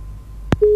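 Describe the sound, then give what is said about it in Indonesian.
A telephone busy tone after a caller's line drops on a call-in line: a sharp click, then a loud, steady single-pitch tone that begins and holds until the end. “Oke, Nenek Afni terputus ya.”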